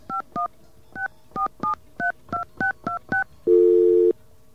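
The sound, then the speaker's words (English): Telephone keypad dialing tones: ten short, sharp beeps in an uneven rhythm, followed by a longer, lower, steady tone. “Well, I can prove it. I'll call it using the 516.”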